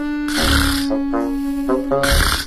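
A person snores while quickly dozing off from lack of sleep. Loud rasping breaths alternate with a few voiced, grunting snorts, heard alone.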